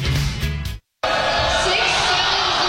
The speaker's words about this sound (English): You can see over on the far side of the gym, the Red River crowd trying to get into this thing tonight.